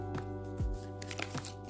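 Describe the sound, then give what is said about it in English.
Playing cards flying out of a deck: a few brief, papery flicks over a steady low tonal hum. “I'm hoping y'all hearing these cards fly out here.”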